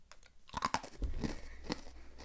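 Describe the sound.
Quiet, close chewing of a crushed, fried pretzel topped with cheese. Several crisp crunches and bites come at an uneven pace, followed by softer munching. No voice is heard.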